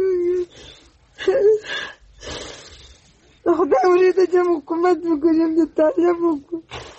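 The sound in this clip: A 47-year-old woman in Uruzgan, Afghanistan, weeps for two sons killed in fighting between Afghan soldiers and the Taliban. Her wailing, sobbing cries come in broken, high, quavering bursts with short gasping pauses, then grow longer and more continuous.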